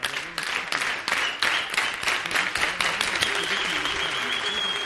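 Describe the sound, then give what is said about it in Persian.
An audience claps in a rhythm set by the performer, starting with a run of synchronized claps in a set pattern, then loosening into continuous applause. “تا به سبک من دست بزنن، تشویقشون کنید.”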